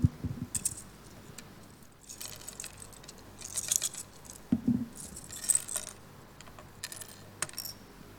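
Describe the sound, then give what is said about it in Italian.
Light metallic clinks and rattles from a toy balance scale being handled, irregular and fairly soft, with scattered sharper clicks and small jangles spread across the whole stretch. “Io volevo farvi vedere questa cosa. Poi andiamo verso la conclusione.”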